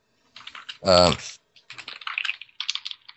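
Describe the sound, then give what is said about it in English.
Rapid typing on a computer keyboard during a tabletop role-playing game session: a loud, busy run of clicky keystrokes in uneven bursts, with a short voiced sound near the start. “typing is mighty loud”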